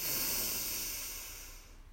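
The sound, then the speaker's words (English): A single deep breath, an airy hiss that starts strong and slowly fades away, with no voice. “So deep breath in, extending your belly. And out. Breath in.”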